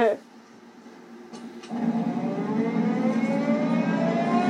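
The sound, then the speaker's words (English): A police car siren sounds as a steady, high wailing tone that jumps louder partway through and then holds at a strong, even level to the end. “A police car's just pulled up.”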